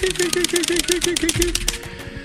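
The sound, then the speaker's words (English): Keys clack on a keyboard in a quick, even run of sharp clicks laced with short tonal blips, then give way to sparser, heavier taps. “And I type a few smileys from parts foreign and creak back in my chair.”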